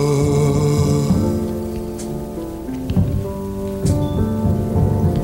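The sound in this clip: Heavy rain of a thunderstorm with a few sharp thunder bursts, set against sustained, steady musical tones that run through the whole clip.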